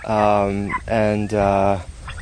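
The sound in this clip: Turkeys kept outdoors under a shade cloth call loudly in three harmonic gobbling bursts, one after another with brief gaps.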